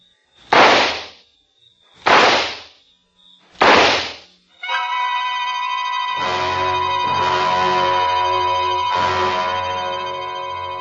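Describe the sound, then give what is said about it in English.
Three sharp gunshots fired at a man, evenly spaced about a second and a half apart, each a hard crack with a brief tail, followed by a sustained droning chord. “took out the gun, aimed very carefully at a spot just in the center of his left shoulder blade, and pulled the trigger four times.”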